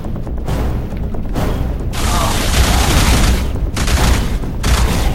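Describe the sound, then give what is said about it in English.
Gunfire during an enemy fight in a video game: a loud, dense stream of rapid shots and booms, broken by a few brief pauses. “Stop reloading when I'm in the middle of shooting an enemy.”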